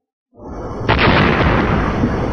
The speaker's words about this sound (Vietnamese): Luồng nước khổng lồ từ trên lao thẳng xuống mặt biển, phát ra tiếng nổ mạnh rung trời